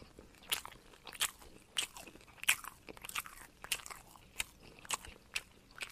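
Crunchy chewing of pizza: a steady run of crisp, crackly bites and mashing sounds repeating at an even pace, fairly soft and close, with no talking.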